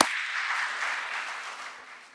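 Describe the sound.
Applause greets a guest being welcomed into a gathering: a steady wash of clapping from many hands that holds for about two seconds and slowly fades.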